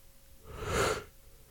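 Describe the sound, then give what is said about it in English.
A single breathy yawn swells up and fades away within about half a second, heard alone and fairly soft. “I keep yawning, I'm sorry.”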